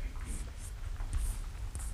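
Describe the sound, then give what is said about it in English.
A word is written on a board, a run of short, dry, scratchy strokes in quick succession, soft throughout. “And then we will write the word self.”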